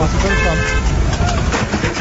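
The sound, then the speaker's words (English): A car horn honks at pedestrians on a windy street. A sustained toot near the start rises above loud, dense traffic and street noise that continues throughout. “And the horn honk is a driver getting mad and honking his horn at pedestrians because they're getting blown in his way.”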